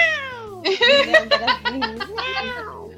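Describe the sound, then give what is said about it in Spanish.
Female cat in heat meowing: a few loud, drawn-out, wavering yowls, the first sliding down in pitch, followed by a longer warbling cry and a final falling meow. “Es que justo apareció mi gata que anda en celo, entonces me tiene loca, perdón.”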